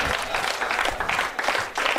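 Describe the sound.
Audience applause at a dinner show, a dense, steady patter of many hands clapping at moderate volume, with brief dips in intensity before picking back up.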